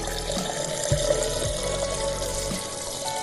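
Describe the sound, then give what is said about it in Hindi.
Tap water runs steadily into a sink while hands are washed, giving a continuous splashing flow with a few soft knocks. “भाई ये ले रुमाल, हाथ धो लिए तो अब पहुँच भी लो।”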